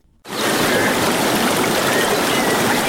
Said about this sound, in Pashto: دا د هغه بایدونکو اوبو شور دی چې د غزنی ښار په منځ کې تیریږي.